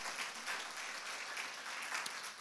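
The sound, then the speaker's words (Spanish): Congregation in a church applauding for Jesus: a steady, dense wash of clapping hands that holds at an even level for the whole stretch, without a clear break. “¿Cuántos le dan un aplauso a Jesús?”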